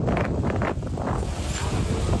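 Strong storm wind in Esenler, strong enough to tear a roof off a building, roars into the microphone as a loud, continuous, buffeting rush with no break.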